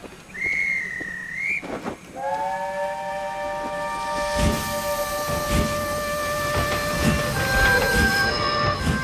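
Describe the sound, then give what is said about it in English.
A steam train departs from a station. A short whistle toot is followed by a long, sustained multi-tone whistle, which plays over steady hissing steam and scattered clanks and thuds. “A guard waves his flag and the train departs.”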